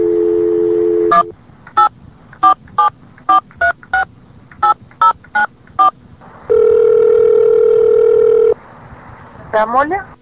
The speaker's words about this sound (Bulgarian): Please enter your destination number now.